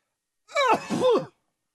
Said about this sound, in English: His throat was scratchy. And as he sneezed once more,